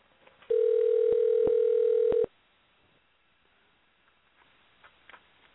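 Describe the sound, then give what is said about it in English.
A telephone dial tone sounds as a steady, low, even hum for under two seconds, with a few sharp clicks on top, then cuts off to near silence broken by faint ticks. “So let's see if we can get her, because sometimes she gets a little busy. So we're going to dial right now.”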